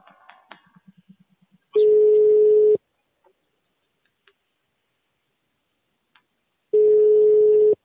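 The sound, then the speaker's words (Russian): Telephone line beeping tones: two long, steady mid-pitched beeps of about one second each, separated by a stretch of near silence with a few faint clicks. Some brief faint sounds come before the first beep. “что это гудит? Алло. Надоели уже эти гудки постоянные.”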